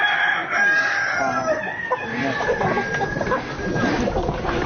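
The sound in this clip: Chickens clucking with a rooster crowing, a busy, continuous layer of loud fowl calls throughout, the crow standing out as a drawn-out, strained call among the clucks.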